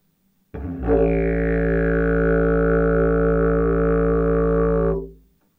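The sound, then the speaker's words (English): A didgeridoo played with the right side of the lips set inside the mouthpiece gives one steady, loud low drone rich in overtones. An upper resonance slides downward as the note settles, and the tone holds for about four seconds before fading out. “if I put the right side of my face, because I'm right-handed, inside the didgeridoo, the right side of my lips, then you'll hear more like sound, and it will sound like this.”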